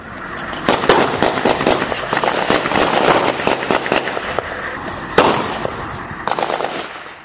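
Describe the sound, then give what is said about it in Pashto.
Gunfire from armed militants aimed at an Afghan army post set in a civilian house, heard as a sustained barrage of many rapid, sharp cracks and pops with one especially loud report late on. “د افغان ځواکونو په داسې پوسته کې یم چې هره شیبه وسلوال پرې خال خال خو کله منظمې ډزې کوي”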